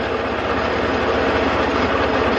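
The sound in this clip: A tractor engine runs steadily as it drives along a rural route, a loud, continuous mechanical rumble with a regular low chugging pulse throughout and no voices.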